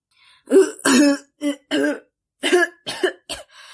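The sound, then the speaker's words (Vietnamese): Raspy coughing and throat clearing from a character in a fantasy story: a run of many short, rough, voiced bursts with small gaps between them, loud against silence. “Sư Tổng Tâm phải ho trước đã, ho xong mới nói”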